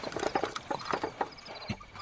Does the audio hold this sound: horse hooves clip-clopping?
yes

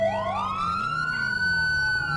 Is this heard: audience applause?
no

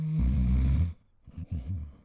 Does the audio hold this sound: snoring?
yes

